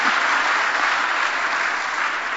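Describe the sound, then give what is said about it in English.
Audience applause at a formal event introducing officials, dense and loud steady clapping that holds evenly throughout without a break or audible voices. “Give her a round of applause, please.”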